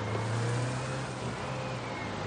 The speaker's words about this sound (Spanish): Un autobús pasa frente a ella.